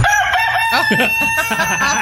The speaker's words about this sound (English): A rooster that comes up and mocks me on my porch. Oh, no. That's not a hen.